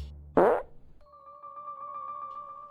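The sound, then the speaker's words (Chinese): A fart sound effect: one short, sharp, breathy burst, then a soft steady hum-like tone that carries on quietly to the end. “就在这时，优雅公主忽然放了一个屁。”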